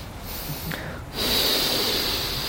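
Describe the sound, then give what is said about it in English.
A voice imitates someone taking deep breaths: a soft, airy inhale swells into a long, loud rush of breath that stays strong and hissing to the end. “So this person would take deep breaths as if they're about to shake a lulav.”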